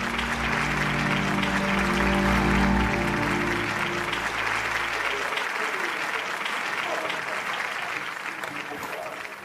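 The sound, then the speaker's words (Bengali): A theatre audience applauds as the stage curtain falls: a dense, loud burst of clapping that holds steady, then thins and softens toward the end. “একটু একটু করে পর্দা নেমে আসছে স্টেজের উপরে। উঠে দাঁড়িয়ে হাততালি দিতে লাগলো রণজয়।”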